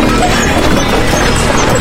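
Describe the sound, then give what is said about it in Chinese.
A horse gallops in a loud, dense, continuous rush of hoofbeats that blur into a steady rumbling clatter rather than separate distinct strikes, with no voices heard. “不行啊，马也只能跑这么快了。”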